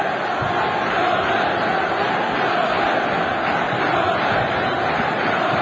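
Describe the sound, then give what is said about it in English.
Plymouth Argyle football fans chant and roar before kickoff at an away game against Notts County, a dense, continuous wall of crowd noise at a steady, loud level. “That is the noise of Plymouth Argyle fans.”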